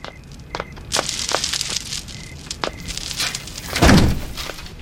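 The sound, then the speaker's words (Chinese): A door is shut after an angry order to close it: a series of scattered knocks and clatters leads into one heavier, louder thud near the end. “把门给我关上。”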